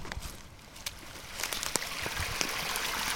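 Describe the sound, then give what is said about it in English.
Water runs fast and clear through a field drain ditch: a steady, broad rushing wash dotted with small splashing clicks, rising slightly in level over about three seconds. “And here we are at the drain or the ditch or numerous other names, depending on where you are in the country. And he's not wrong. I've got to be honest, it's running fast and it's clear.”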